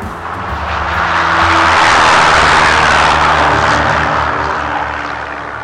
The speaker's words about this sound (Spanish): Decidieron tomar un avión hacia Misiones.